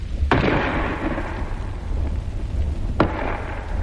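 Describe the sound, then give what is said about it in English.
A 5.5 gun fires at a fort wall at point-blank range during a wartime assault: one sharp bang, then a second bang about three seconds later as the shell bursts, over a continuous loud rumbling roar. “The first bang you heard was the gun firing, and the second was the shell bursting on the wall.”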